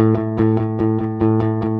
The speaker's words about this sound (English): but instead I want all downstrokes, which sounds like this.